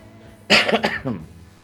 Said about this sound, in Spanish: La voz estará bien, pero la tos no, ¿eh?